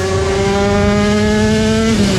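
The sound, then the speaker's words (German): Classic old motorcycles racing at a Classic Grand Prix in Schleswig-Holstein, heard as one loud, steady engine drone whose pitch sags slightly near the end. “Das ist der Sound vom Scheggerotter Classic Grand Prix in Schleswig-Holstein am 1. Juli-Wochenende. Klassische, alte, richtig geile Motorräder,”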